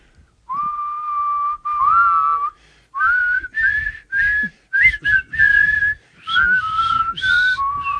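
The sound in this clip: A person whistles a tune: clear, bright melodic phrases in a series of short bursts separated by brief pauses, with the pitch moving up and down between notes, heard alone without talk.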